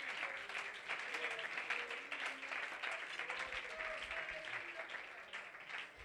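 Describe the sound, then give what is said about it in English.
An audience claps their hands at a church service, a faint but continuous, even patter of many hands with some tonal sound running underneath. “Oh, clap your hands to the Lord.”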